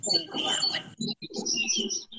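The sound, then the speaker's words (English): Birds chirping in a backyard: a steady stream of high, thin chirps and tweets runs through the whole clip over a low, busy murmur of background sound. “It's got birds. Yes. In my backyard.”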